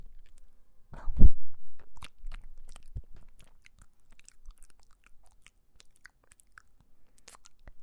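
Someone bites into and chews home-cooked food, starting with a loud crunchy bite followed by a few softer chewing crunches that taper into faint scattered mouth clicks.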